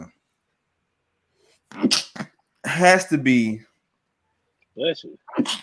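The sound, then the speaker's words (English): A loud human sneeze, explosive and breathy, with a few other short vocal bursts around it. “Every time you sneeze”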